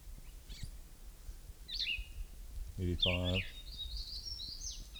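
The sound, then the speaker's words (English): Bird calls: a few high, thin chirps and a longer warbling phrase, fairly faint, with a brief voice speaking partway through. “This is bird number one again.”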